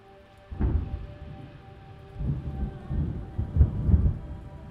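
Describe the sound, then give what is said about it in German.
Thunder rolls over falling rain in a storm, with a few deep, low rumbles that swell and fade over a steady soft hiss of rainfall and no voices. “Ein Gewitter wie damals an diesem Tag.”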